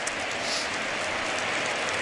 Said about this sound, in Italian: Applaudire Don Rodrigo Palacio, che risponde all'applauso del pubblico.